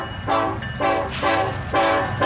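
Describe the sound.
Train horn sounding as a train arrives on tracks under repair by construction workers. Several loud, tonal blasts come in an uneven pattern of on and off, with rail rumble beneath them.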